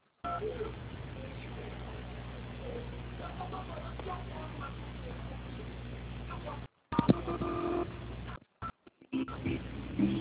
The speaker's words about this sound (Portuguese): eu vou estar transferindo a ligação. Só deixa o senhor aguardar na linha, tá?